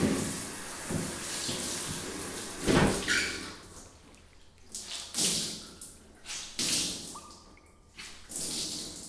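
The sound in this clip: A towel being soaked in hot water, with a series of soft wet swishes, sloshes and drips of varying loudness spread over several seconds, and no talking.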